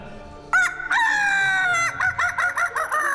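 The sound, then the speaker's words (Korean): A rooster crows near apartment blocks: a brief opening note, then one long, strained, harmonically rich crow, followed by a quick run of short, choppy notes, all loud and alone. “닭 소리가 들립니다.”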